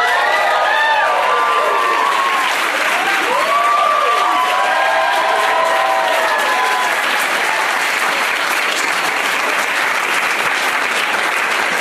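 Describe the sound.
An audience applauds and cheers to welcome guests onto a stage. Dense, steady clapping carries through the whole stretch, with rising and falling whoops over it in the early seconds.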